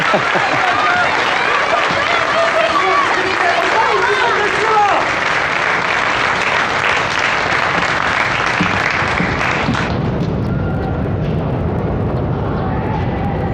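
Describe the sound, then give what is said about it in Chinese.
An audience applauds to welcome a poet about to recite a Pushkin poem. Dense, steady clapping holds at full volume, then thins and softens over the last few seconds. “掌声欢迎。”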